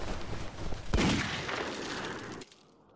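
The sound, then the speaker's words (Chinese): A sharp gunshot rings out in a jungle skirmish as a bullet passes overhead. One sudden crack is followed by a dense, noisy rumble that carries on for a moment before falling away near the end. “一发子弹从我们这群食腐动物头上飞过，我们抬头看见从丛林里钻出又一个日本人。”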